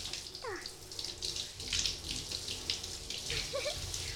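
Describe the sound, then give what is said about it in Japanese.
Water runs steadily as hair is rinsed, working from the nape of the neck, with a continuous splashing hiss and a few brief gurgling chirps. “じゃあ話題の襟足さんの方から流していきます。”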